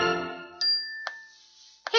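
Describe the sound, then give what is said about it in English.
A phone sounds a text message notification ding, a few short, bright chime tones with a lingering ring between them, clear and fairly soft against quiet. “So Vivian wasn't at all surprised as she was getting ready for school one morning when her phone dinged with a text from”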